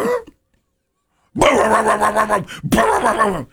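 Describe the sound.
A voice imitates a dog reacting to a neighbor's flatulence: a long, drawn-out woof-like howl, then a shorter second burst after a brief gap. Both are loud and heard alone.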